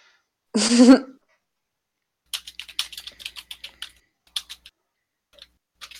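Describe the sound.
Keyboard typing while names are noted during a tabletop role-playing game: many quick, light keystroke clicks in uneven bursts, preceded by a brief throat clear and a pause.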